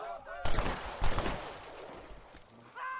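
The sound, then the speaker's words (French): Gunshots in a video game: two sharp, crackling blasts about half a second apart, rather quiet, with brief talk just before and after. “il m'a mis une balle. Mais il m'a tiré dessus en premier.”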